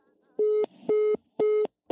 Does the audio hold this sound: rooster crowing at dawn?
no